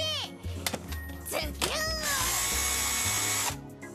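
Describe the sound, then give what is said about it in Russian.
An electric screwdriver's motor whirs in short bursts, its whine sweeping upward in pitch on each trigger pull, then holds a loud steady run before cutting off. A faint voice may be heard under it. “Что это? Электрическая отвертка?”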